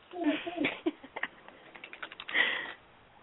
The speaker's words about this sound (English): Hold on, let me type this.